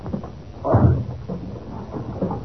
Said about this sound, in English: The door's locked. Oh, we must break it open then. Come on. One, two,